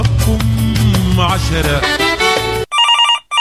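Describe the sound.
A telephone rings for an incoming call-in to a radio show: music plays first, then a bright, warbling electronic ring sounds loudly in two bursts.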